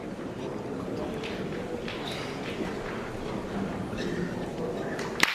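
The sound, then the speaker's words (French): A single sharp clack of a pétanque boule striking and cracking an opponent's boule during a French championship quarter-final in a boulodrome, ringing out near the end over a steady murmur of crowd noise. “Ligan, là, qui vient de fissurer la boule adverse. On a entendu l'impact résonner dans tout le boulodrome.”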